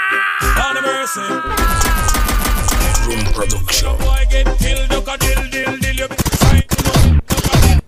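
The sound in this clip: Gunfire sound effect: loud, dense bursts of rapid machine-gun fire rattling almost continuously, with sharper separate shots toward the end.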